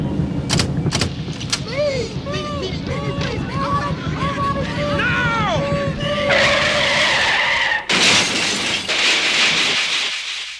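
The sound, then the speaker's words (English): Tires of an old car squeal through a long skid as it is driven through a barrier, wavering high squeals over a steady rumble, then two loud, harsh bursts of broad noise toward the end. “I'll drive this heap right through the barrier.”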